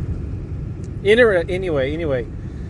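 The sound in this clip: A car driving in the evening gives a low, steady engine and road rumble throughout, with a voice talking over it partway through.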